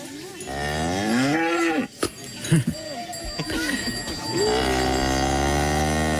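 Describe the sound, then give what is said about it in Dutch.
Cows mooing in a Swiss mountain village near Gstaad, with several long, drawn-out, low moos that overlap and swell, broken by a few short grunts in the middle. “En het geluid van je jeugd. Waar stonden deze koeien?”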